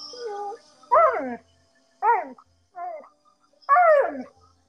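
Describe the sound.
A dog howls in several short, loud yowls separated by brief pauses. Each one is a tonal, wavering cry that bends up and down in pitch.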